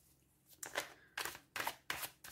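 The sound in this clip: Tarot cards being shuffled and drawn, heard as a few short, papery riffling bursts in quick succession, fairly quiet and with no one speaking.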